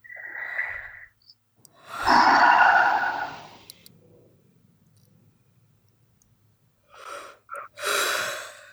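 Deep breaths drawn in and let out: a few loud, breathy inhales and exhales separated by quiet pauses, the longest one early on and a quicker cluster near the end.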